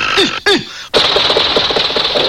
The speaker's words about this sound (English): stand in front of machine, seize, crank, spin crank sharply.